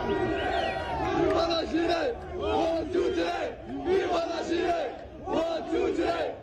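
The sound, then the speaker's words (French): A crowd at a street demonstration in Montréal-Nord, held over police station 39, chants in loud, rhythmic repeated phrases that swell and ebb in regular waves. “C'est Viva l'Algérie. OK. Dans une manifestation pour le poste 39 à Montréal-Nord.”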